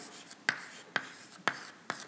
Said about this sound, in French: Alors je vais écrire VR